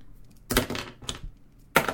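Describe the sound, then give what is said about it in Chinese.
Three sharp clattering impacts, each with a brief rattle, as a pen is spun in the hand and dropped during a class, with quiet gaps between them. “还有上课的时候有一些人上课呢就喜欢一支笔然后在手上就这样转一个圈掉一下，听到没有”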